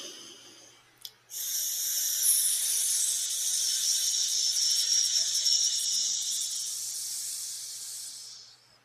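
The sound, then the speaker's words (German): A long hissing exhale through the teeth in a hissing-snake circular breathing exercise: a brief sharp sound, then a steady, loud, sibilant hiss lasting several seconds that fades at the end. “Nennt sich Kreislaufatmung zischende Schlange.”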